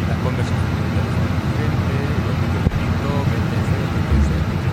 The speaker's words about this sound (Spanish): Este es el ruido de fondo que tenemos nosotros las 8 horas que estamos trabajando en algunos autobuses de nueva adquisición.